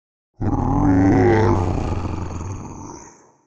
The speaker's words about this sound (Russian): А затем раздался гулкий низкий рев.